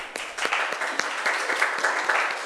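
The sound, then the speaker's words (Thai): Students in a classroom clap for a classmate who has just described her papier-mâché prop project. The applause is moderately quiet, with a few sharper claps standing out of a steady patter. “ดีมากปรบมือให้เพื่อนหน่อยครับ”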